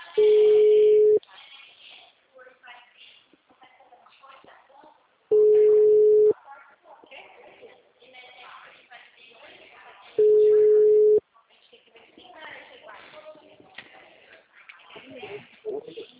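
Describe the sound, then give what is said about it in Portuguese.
A telephone ringback tone while calling someone: three steady, mid-pitched one-second tones spaced about five seconds apart, with people talking in the gaps between them. “Calma aí, tô ligando pra ele.”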